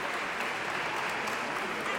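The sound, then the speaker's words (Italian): Applause on an Italian radio programme, a steady, fairly faint hiss of many hands clapping that stays even from start to finish. “Applausi.”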